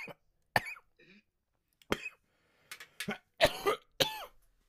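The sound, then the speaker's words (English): Coughing from a person: a series of harsh, irregular coughs with throaty throat-clearing between them, some sharp and loud, others fainter, separated by short quiet gaps. “Lots of coughing on this podcast.”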